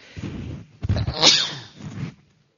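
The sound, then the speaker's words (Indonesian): A human sneeze, one of repeated sneezes blamed on chili sambal being cooked nearby; a breathy build-up gives way to a sharp, noisy burst and then a softer trailing exhale, loud and alone. “Masa ada yang banyak masak sambal ya? Bawaannya bersin terus.”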